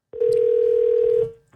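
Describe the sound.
A telephone dial tone heard while calling a caller back: one steady, unbroken tone at a single pitch, about a second long, sounding alone before it cuts off.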